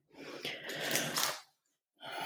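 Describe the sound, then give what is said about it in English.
A deep breath drawn in, a loud, airy inhale lasting just over a second, followed by a brief silence and the start of another breath sound. “Okay, big breath in.”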